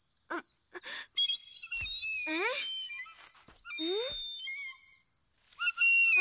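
A feather whistle is blown in a series of warbling, breathy whistle tones separated by short gaps, some notes sliding upward in pitch, the last bursts loud and bright.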